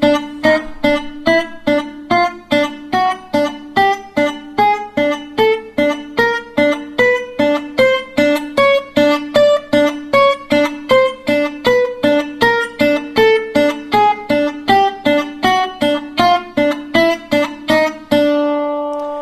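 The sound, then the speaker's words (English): Slide guitar played staccato, with each note stopped short by the picking hand and alternated against the open first string. A long, steady run of many evenly spaced, clipped notes moves over a repeated lower pitch, then ends on a ringing note. “So in this case, you're going to lift up your slide and your damping finger and still continue to sort of stop the notes with your right hand as they end. So that's going to sound like this.”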